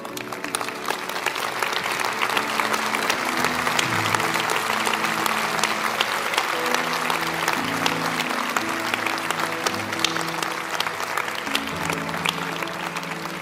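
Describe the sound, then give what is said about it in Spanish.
Audience applause at a religious worship service, following an altar call. The clapping is dense and steady for the whole stretch, with sustained music playing underneath. “Hay varios que se han puesto de pie. Anímelos a dar, denles un aplauso.”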